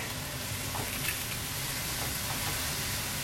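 Yakisoba noodles frying in a pan, a steady, loud, even sizzle with crackling hiss that runs unbroken from start to end, with no voices.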